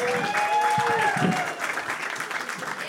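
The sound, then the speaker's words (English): Audience applause welcomes guests onto a stage, a dense wash of clapping that peaks early then settles, with some sustained tones and a voice sounding over it. “Please give it up for Sarah Weinshank, Bree Pruitt, and Amy Miller. Come on out, ladies.”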